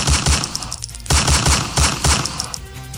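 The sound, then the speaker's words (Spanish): Rapid, loud gunshots from a firearm fired repeatedly during a street attack. Sharp cracks come in several dense bursts separated by short gaps, with no voices. “uno de los hombres desenfundó un arma de fuego y disparó en repetidas”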